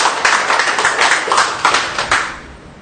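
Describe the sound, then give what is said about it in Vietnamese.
Church audience applauds during a feast-day celebration of Saint Columban, a steady round of many hands clapping that gradually thins and fades near the end. “Một tràng hoa tay thưa anh chị.”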